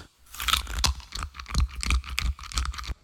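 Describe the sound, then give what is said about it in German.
Biting and crunching on a bone: a quick, irregular run of many crisp cracks and chewing crunches, fairly quiet, with no voices. “Der Max beißt herzhaft auf den Knochen.”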